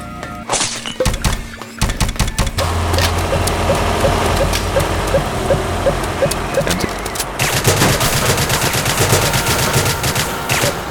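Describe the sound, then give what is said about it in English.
Video game gunfire rips through trash cans in rapid bursts of many shots. Sharp metallic clangs and smashing break through the steady, loud barrage, with a short pause near the start. “I think I'm shooting trash cans down there.”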